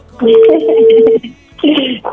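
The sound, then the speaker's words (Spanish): A telephone number being dialed: a steady tone holds for about a second, then after a pause a short beep sounds, both set against dense, busy sound. “Vamos, le estamos marcando a Rigo.”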